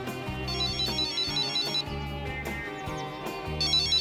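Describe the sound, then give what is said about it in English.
A cell phone rings inside a bag indoors. Its electronic ringtone repeats a melodic pattern of notes, with bright high chimes at the start and end, and plays continuously at a fairly soft level. “The cell phone is ringing in her bag, which is indoors.”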